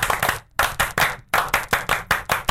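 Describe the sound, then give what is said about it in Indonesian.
Rhythmic hand clapping of the Indonesian Pramuka scout clap (tepuk pramuka): loud, sharp claps grouped into patterned bursts with two brief pauses, settling into a steady, even beat toward the end, with no talk over it. “Ya, sekali lagi itu bukan salam pramuka, tapi tepuk pramuka.”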